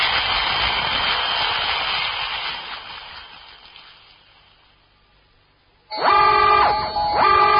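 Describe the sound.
A spaceship drive roars at full thrust in a science-fiction drama. The loud, broad engine roar slowly fades away, and then a strong, wavering horn-like tone with falling sweeps abruptly takes over.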